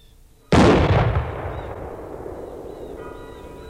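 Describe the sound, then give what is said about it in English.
A percussion-cap musket fires a single loud, sharp blast that rolls off into a long, gradually fading rumbling tail. “The only other thing we need is a percussion cap. Are we all set there? We're all ready to fire our musket?”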